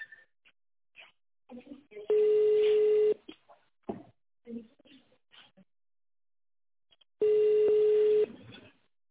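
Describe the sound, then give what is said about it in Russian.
Touch-tone dialing of a phone extension number gives two loud tone bursts, each about a second long. They are separated by several seconds of quieter recorded speech, and more speech surrounds them. “Please dial the extension number in the tone mode or wait for the operator.”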